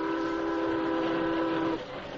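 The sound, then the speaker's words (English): A steam locomotive that is not slowing down sounds its whistle, a loud sustained chord over a hissing rumble, which cuts off abruptly near the end. “As you say, the train isn't slowing down at all.”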